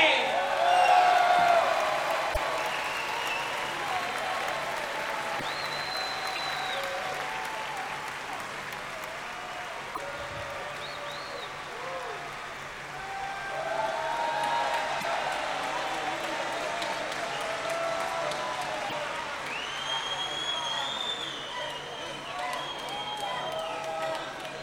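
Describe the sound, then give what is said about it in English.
A Milan rock concert audience applauds and cheers for drummer Frankie Banali, with steady massed clapping, scattered whistles and shouts, loudest at the start and easing slightly before holding on. “Make some fucking noise, Milano, for Mr. Frankie Benali!”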